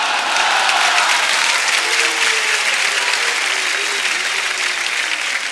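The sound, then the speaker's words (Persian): Loud, dense applause from an audience, a thick wash of clapping sustained evenly for several seconds, with a faint voice underneath. “بازم دست زدیم، که دست نزند اول نشد.”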